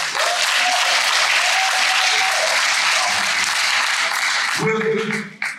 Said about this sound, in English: Congratulations. Thank you. Give him a hand.